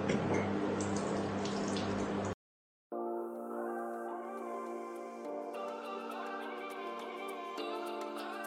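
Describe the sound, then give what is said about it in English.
Water runs at a sink as someone washes their face, with a couple of seconds of steady splashing that cuts off abruptly. After a short silence, tonal music follows. “Finished washing my face. So my skin is very, very clean, very smooth.”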